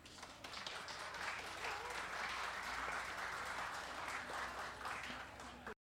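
Sustained audience applause welcomes a family of singers to the stage: dense, even clapping holds steady for about six seconds, then cuts off sharply.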